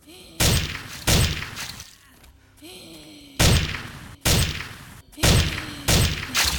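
A shotgun firing in a video game: several heavy, booming blasts spaced at irregular intervals, with quieter game sounds between them.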